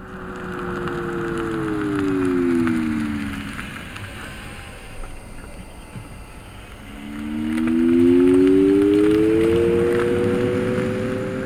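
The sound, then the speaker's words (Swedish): A tonal warning sound added to an electric vehicle: a steady hum whose pitch slides downward over the first few seconds and fades, then returns louder and rising, over a constant rushing wind and road noise. “Ett annat exempel där vi då har lagt på ett ljud, i det här fallet ett tonalt koncept.”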